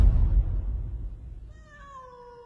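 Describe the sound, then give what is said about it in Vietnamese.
A cat held in someone's arms in a banana garden gives a single clear meow, its pitch sliding slightly downward, after a low rumbling noise fades away. “là bố nó đang đứng ở trong vườn chuối, tay đang ôm con mèo.”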